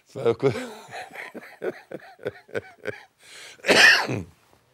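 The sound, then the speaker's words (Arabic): A man coughs once, a harsh and loud burst that follows a few seconds of his quieter speech. “انا بكح.”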